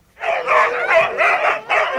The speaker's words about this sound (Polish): Na tamtejszej plaży ścigało się dzisiaj kilkadziesiąt psich zaprzęgów.